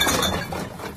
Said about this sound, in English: That's the sound of change adding up.